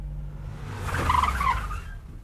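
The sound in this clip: Car pulling up and stopping by a street lamp: a low engine rumble beneath a brief tire squeal that grows louder and then eases off, with no voices.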